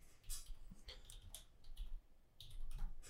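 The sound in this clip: Computer keyboard typing and mouse clicking during a Google search: quiet, irregular taps and clicks in a rapid, uneven rhythm, faint throughout.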